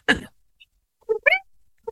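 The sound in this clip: A person imitates a cat's meow with a short voiced whine of rising and falling tone. A sharp breathy burst comes before it, and a few brief vocal sounds follow.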